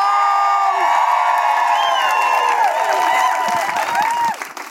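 An audience applauds, cheers and whoops for a stand-up comedian, with a loud sustained roar of clapping and high whoops that stays strong before tapering off at the very end.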